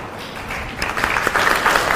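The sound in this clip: Audience applause at a temple gathering approving a member's appointment to a project, starting softly and swelling into fuller, steadier clapping after the first second.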